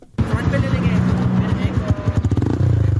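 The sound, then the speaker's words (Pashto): Engines of motorcycles ridden by a group of touring riders give a steady, low, throbbing rumble. Toward the end it breaks into a rapid, uneven pulsing as the revs change. “دا په چرڅد کې موټر سایکل سوار سیلانیان دي.”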